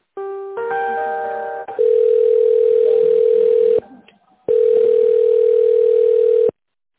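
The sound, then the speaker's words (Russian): Telephone line tones while a call is being transferred: a steady electronic tone that shifts in timbre, cuts out briefly, then resumes just as loud before stopping abruptly, with no voices. “Сейчас я вас переключу.”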